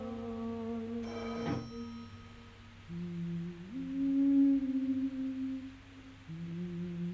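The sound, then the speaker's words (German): A telephone bell rings once in a short, bright, jangling burst. Low, steady tones follow and shift between a few pitches, fairly faint, with no talking. “Das Telefon. Du musst rangehen.”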